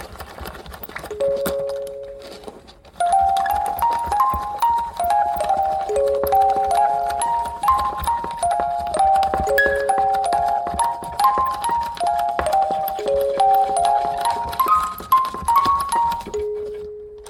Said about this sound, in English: I'm not sure if like, you know, anybody would like listen to that, the music box on its own, and think like driving.